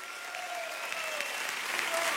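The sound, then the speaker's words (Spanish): Audience applause fills a church service, dense continuous clapping that holds at a steady level throughout. “Aplaudan fuerte.”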